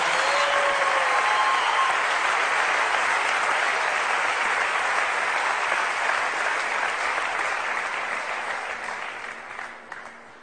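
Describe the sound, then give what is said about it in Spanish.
An audience claps for a performer, many hands in a dense, even roar that holds steady before thinning and fading toward the end. “Un aplauso para Lili, por favor.”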